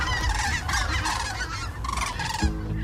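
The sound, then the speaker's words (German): A flock of cranes calls as it flies overhead in autumn over Ribnitz-Damgarten, Mecklenburg-Vorpommern. Many loud, overlapping trumpeting calls continue without a break, and no one speaks. “Da fliegen die Kraniche über uns hinweg, schreibt Heike.”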